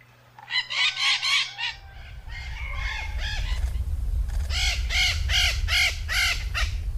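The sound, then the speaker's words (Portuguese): Harsh, repeated screeching calls from a noisy flock of maritaca parakeets, delivered in rhythmic bursts: one quick series, a brief lull, then a longer run of strident calls over a constant low rumble. “E aí, você já sabe de quem é o canto? Quem disse maritacas acertou.”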